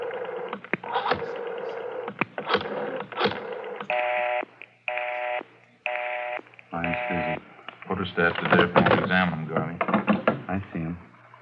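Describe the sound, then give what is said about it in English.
A telephone dials an outside line, sending a few short, evenly spaced electronic keypad tones. People talk before and after the dialing. “Can I use the phone? I have to call my wife and let her know.”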